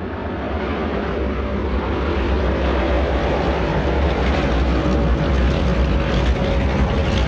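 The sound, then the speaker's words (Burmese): Continuous roaring engine noise from a jet airplane taxiing to the runway: a dense rumble and hiss that holds level and loud throughout, with no pauses. “လေယာဉ်မြန်ကိုဥပစာသို့မောင်းနှင်သွားလိုက်ပါတယ်”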